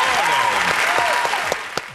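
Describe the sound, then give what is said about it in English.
A studio audience claps to welcome a morning-show host, a dense burst of applause under talking voices that thins out toward the end into a few separate, sharp claps. “I got clapping.”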